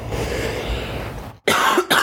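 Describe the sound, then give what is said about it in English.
A person coughing: two short, harsh bursts close together near the end, after a brief silence and a longer stretch of rough, breathy noise. “sorry, I still do have a cough. Sorry if that was loud.”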